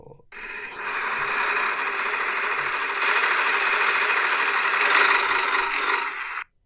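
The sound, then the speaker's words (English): A prize wheel spinning, giving a steady, dense whirring rattle that starts abruptly, holds at an even level for about six seconds, then cuts off. “All right, I'm going to spin the wheel here. Here we go.”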